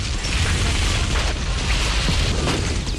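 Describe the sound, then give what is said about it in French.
A heavy explosion roars as a fireball rises into the sky during a military offensive, a dense, rumbling blast of broad noise that stays loud and steady through the whole stretch without a break. “Boule de feu s'élève dans le ciel. L'offensive est lancée. La flotte du PAIGC est détruite et l'électricité coupée.”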